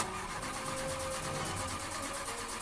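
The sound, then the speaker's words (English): A Ford Tempo car engine cranking as the ignition is turned. The starter makes a faint, steady, rapid whirring churn with a regular pulsing rhythm throughout. “Right, I'm going to turn ignition.”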